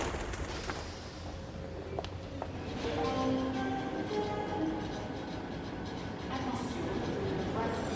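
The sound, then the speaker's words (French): Train station ambience at Gare de l'Est as a TGV arrives: a steady, heavy rail rumble that swells slightly partway through, with faint tonal whines and squeals running over it. “Il est presque 9h du matin et je me trouve gare de l'Est. Je cherche le TGV en provenance de Reims, Charleville, qui va arriver à 9h.”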